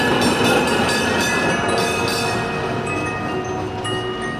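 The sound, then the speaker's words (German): A tram running on its rails gives a loud, steady rumble with high metallic whining tones held throughout. The level eases slightly toward the end. “Die Straßenbahn!”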